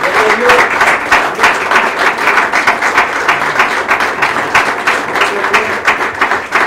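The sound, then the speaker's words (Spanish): A church audience claps loudly and steadily after a call from the preacher during a sermon, with dense, even applause continuing for the whole stretch. “Vamos, denle un fuerte aplauso.”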